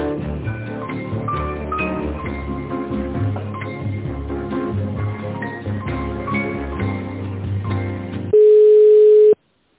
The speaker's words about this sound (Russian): Сейчас, секундочку, вот. Вас переключу.